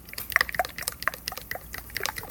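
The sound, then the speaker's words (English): Thick juice sloshing inside a bottle as it is shaken, giving quick irregular gurgles and wet splashes for a couple of seconds. “So here is a bottle of juice that is a lot better than the cinnamon juice I'm talking about. So listen to this one.”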